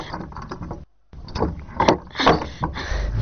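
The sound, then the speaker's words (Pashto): A door that will not open is being tried, giving a few rattling mechanical clatters and knocks from the handle and frame after a brief silence, with uneven bursts of loudness. “وی ورکه سې دروازې ولې نه خلاصېږي؟”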